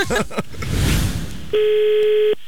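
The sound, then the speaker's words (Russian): A telephone tone sounds as someone calls a small hotel. A brief voice and a rustling noise come first, then a single steady, buzzing tone holds for almost a second before cutting off. “Поэтому я решил позвонить в небольшую гостиницу с очень большой просьбой.”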